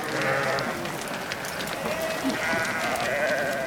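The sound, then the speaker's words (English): A flock of sheep bleats continuously while being driven down a mountain toward a river. The overlapping, wavering calls form a dense, steady chorus. “The two of them drive the sheep down the mountain towards the river.”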